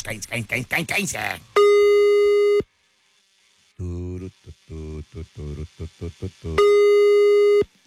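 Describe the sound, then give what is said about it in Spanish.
A telephone line tone sounds while a call is dialed: two long, steady, flat electronic tones, each lasting about a second. People talk before and between them. “Ahí está. Estamos marcando.”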